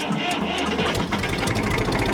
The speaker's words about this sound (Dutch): Als je goed luistert. Gewoon al. Er zijn dus ook twee motoren.